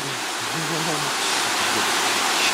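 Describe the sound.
Rain falling as a dense, continuous hiss of noise, steady and even throughout with no clear breaks.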